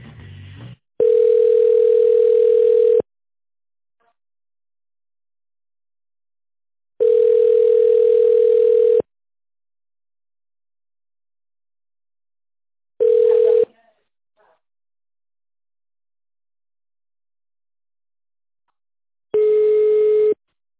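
Telephone line tones play during a call transfer: four long, steady mid-pitched beeps separated by silent gaps, the third noticeably shorter than the others, with no talk over them.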